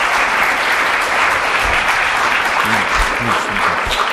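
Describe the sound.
A lecture audience gives a speaker a welcoming round of applause, a loud, even wash of clapping that holds steady. A voice speaks briefly under it toward the end.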